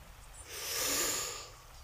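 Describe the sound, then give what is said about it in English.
A deep breath drawn during a calm spoken poem: one soft, airy swell of breathing that builds, peaks and fades away on its own. “Now, take a deep breath in”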